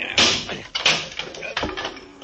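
Heavy wooden thuds as a chair is swung to batter a locked door until it gives: a few loud, irregular blows with scraping and rattling between them.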